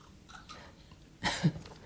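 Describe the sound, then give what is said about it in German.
Someone takes a quick sip of a drink: a faint, short wet slurp with a small gulp right after it, alone in an otherwise quiet moment. “Ich würde jetzt gerade mal einen Schluck trinken. Moment.”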